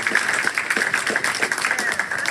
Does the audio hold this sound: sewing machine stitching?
no